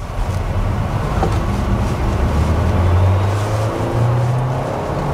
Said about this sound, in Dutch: Hoor de verbrandingsmotor ook. Nu schakelt hij. Dat is een soort vertraging als je schakelt.